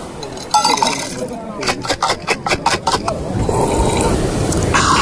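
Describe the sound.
Glasses clinking in a toast with mocktails: a quick run of many bright, sharp clinks in the middle stretch, set against a continuous background.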